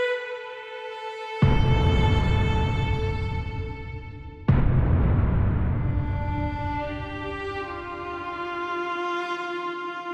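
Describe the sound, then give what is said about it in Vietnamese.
Two loud booming blasts like explosions, each hitting suddenly and fading slowly over a sustained tonal drone. “Những tiếng nổ lớn vang lên liên tiếp.”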